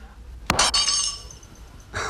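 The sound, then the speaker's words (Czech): Glass or crockery shatters in a sharp, loud crash that breaks into bright tinkling shards. The ringing fades over about a second, then a second shorter burst of clattering pieces follows near the end. “Střepy znamenají štěstí.”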